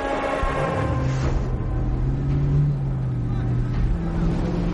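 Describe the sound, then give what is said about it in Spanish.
A car is driven through a truck parking area with a steady low engine rumble and a humming drone that stays fairly even throughout. “En un aparcamiento de camiones, el sicario joven conduce su vehículo.”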